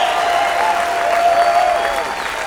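An audience applauds to welcome a mandolin player joining a quartet on stage. Dense, steady clapping continues at an even, fairly loud level throughout, with no speech.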